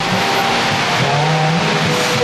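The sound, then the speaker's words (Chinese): Cars driving through a rain-flooded road make a continuous, loud hiss of water and tyre spray over a low engine rumble, steady throughout with no voices. “道路上积满雨水，车辆都要涉水而行。”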